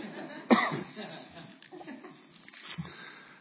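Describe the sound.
One sharp cough from allergies stands out early, followed by quieter throaty sounds and faint speech.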